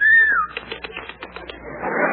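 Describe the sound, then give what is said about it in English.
A man gives a wolf whistle aimed at a woman: a single high, clear whistle that holds briefly, then glides downward in pitch. Softer scattered noises follow. “In Brazil, you actually have men who whistle at women?”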